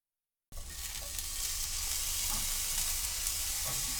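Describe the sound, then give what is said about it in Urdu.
Steady, even sizzling of salted shimeji mushrooms frying uncovered over low heat in a frying pan. It starts abruptly after a brief silence and holds at a constant level throughout. “شمجی کھمبیوں کو frying pan میں پھیلا کر ان پر تھوڑا نمک چھڑک دیں۔ ڈھکے بغیر دھیمی آنچ پر پکائیں اور اس دوران انہیں الٹ پلٹ کرتے رہیں۔”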